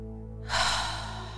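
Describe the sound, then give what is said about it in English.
One deep breath during a guided breathing exercise: a soft, airy rush swells up partway in, then slowly tapers off, heard over a low, steady hum. “So we're going to go in through the nose and out through the mouth. Deep breath in and out.”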